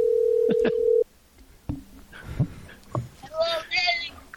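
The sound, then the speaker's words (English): Telephone dial tone holding steady for about a second before cutting off, followed by faint line clicks and tones while people talk over the call. “Ring him now. All right, I'll ring him.”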